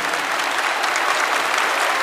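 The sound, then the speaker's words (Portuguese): An audience applauds at Holy Mass, a dense, steady wash of many hands clapping that stays at an even, fairly loud level throughout. “Uma salva de palmas para esse homem de Deus.”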